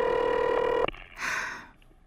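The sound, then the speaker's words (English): A steady two-note telephone dialing tone, heard while a call to the police department is placed, holds evenly for under a second, then cuts off with a sharp click into faint, noisy hiss. “Oh, do you have to dial? Can't you ring them directly?”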